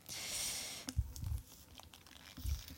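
A package of small fur microphone windscreens is torn open, with a faint rustle followed by scattered crinkling and crunching of packaging.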